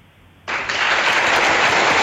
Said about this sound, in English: Yes. You've got the applause.